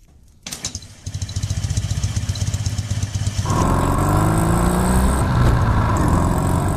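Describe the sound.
A Ural motorcycle engine starts up and runs in a coarse, rattling chug that grows louder and steadier partway through, settling into a throbbing idle.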